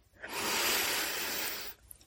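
A single slow, deep breath in is drawn during a calm relaxation exercise. It is a smooth, airy hiss that swells in, holds steady for about a second and a half, then stops.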